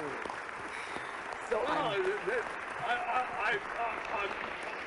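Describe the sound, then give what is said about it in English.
Applause from a studio audience welcoming a guest onto a celebrity talk show: dense, steady clapping and cheering that runs the whole time, with voices talking over it. “I've never had an ovation like that.”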